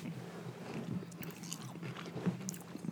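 Crisp crunching as someone bites and chews a chocolate-covered wafer bar with a cream filling: several soft, quiet bites and chewing noises with no talk.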